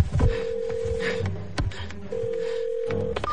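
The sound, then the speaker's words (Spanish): A mobile phone places a call: a few short dialing beeps, then two long, steady ringing tones with a pause between, over faint rustling. “comienza a marcar sin mover un milímetro el teléfono. Realiza la llamada”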